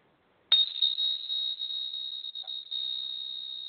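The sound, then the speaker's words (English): Hand-held chimes are struck once with a sharp attack, then ring as a bright, high, sustained tone that shimmers on for several seconds without dying away. “For those of you that can see it, you can see I'm holding chimes. For those of you that can only hear it, hopefully it sounds good.”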